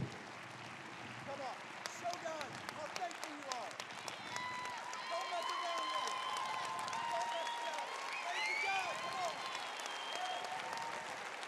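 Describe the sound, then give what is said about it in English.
A church audience applauds: dense, continuous clapping rises in intensity, with scattered shouts and voices from the crowd mixed in throughout. “You don't need a cue to clap. You don't need to look around and see when everyone else is clapping. Just go.”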